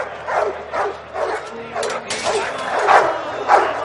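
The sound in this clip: Dogs bark and yelp in a fenced, bloodstained fighting pit set in a drained pool while a crowd eggs them on; sharp yips and barks come in repeated bursts, with people's voices mixed in.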